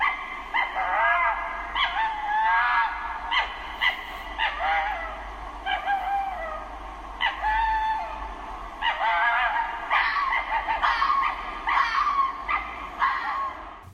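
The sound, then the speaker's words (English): A fox calls again and again in high, yipping, whimpering cries, each a short harmonic burst, repeated many times in close clusters across the whole stretch with no talk over them. “actually, what you've just heard is a fox. So, for anybody that's never heard a fox, again, here is a sound bite.”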